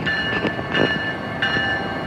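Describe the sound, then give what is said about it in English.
A stationary yellow Amtrak train sits in the daytime sun, giving off a steady mechanical drone with a constant high tone and a few faint knocks. “So the train has lights on, even though it's during the day, and I don't think that's very necessary because we're standing in the hot sun, but it's like yellow and it has the Amtrak symbol on it”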